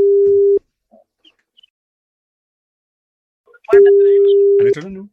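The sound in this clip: Two long, steady telephone ringing tones sound as a radio station calls a listener, separated by a few seconds of near silence, with a brief voice at the end.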